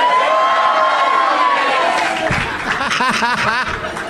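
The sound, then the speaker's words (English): A live comedy show audience at the Punchline in Atlanta, Georgia cheers and partly sings along: loud overlapping voices, drawn-out sung tones at first, then bursts of whooping and chuckling from the crowd. “Half of you cheered, and half of you sang, "This is Doug Loves Movies."”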